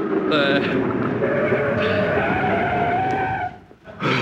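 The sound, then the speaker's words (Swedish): Tires squeal as a car brakes hard beside a city-street curb: a sustained, slowly rising squeal lasting about two seconds, then a brief lull, with people talking over it. “Stanna vid trottoaren här borta nu, är ni snäller. Vi trottoaren. Nej, inte på trottoaren, vi trottoaren. Bromsa nu då, bromsa. Bromsa.”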